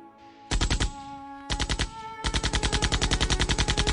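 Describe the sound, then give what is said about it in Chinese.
Bursts of Maxim machine gun fire aimed at a bunker in a war battle scene: two short rapid bursts, then a long sustained stream of loud, evenly spaced shots. “迷龙已经开火了，豆饼扶不住，那可是轻装甲都能穿透的马克沁，他抖得像踩了电门一样，第一个连射全甩到暗堡上方去了。”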